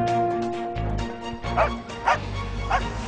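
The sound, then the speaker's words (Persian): A white dog barks and yips in a few short, sharp bursts mixed with whimpering tones, over a steady low background hum. “دوباره اون سگ سفیده است.”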